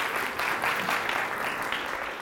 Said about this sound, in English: Round of applause for Jonah. It's bravery doing that.